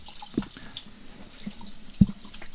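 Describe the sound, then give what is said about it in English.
Running tap water as hands are rinsed in a kitchen while cooking: a soft, steady hiss of flowing water, broken by two brief knocks, the second louder. “Rinse my hands off.”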